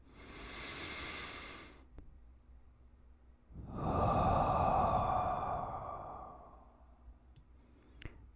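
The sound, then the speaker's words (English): Deep breathing during a guided relaxation: a soft, airy breath, a silent pause, then a longer and louder rushing breath that fades out gradually. “One last deep breath.”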